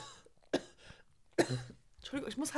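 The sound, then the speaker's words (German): A woman coughs in a few sharp, loud bursts separated by short pauses, with a busier cluster of coughing sounds near the end. “Warte kurz, bis sie fertig ist mit ihrem Husten. Entschuldigung, ich muss halt husten.”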